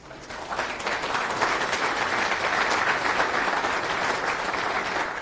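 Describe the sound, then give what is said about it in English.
Audience applause welcoming a speaker to the stage at a software conference talk about undeclared and unused dependencies. Dense, steady clapping swells quickly and holds evenly for about five seconds, with no voices over it. “Okay, so our next speaker is Johan Herland, and he's going to talk about faulty depths, undeclared and unused dependencies. Give him a warm welcome.”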